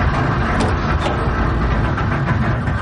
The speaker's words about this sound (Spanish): En el puente de mando, Freya intenta arrancar el barco.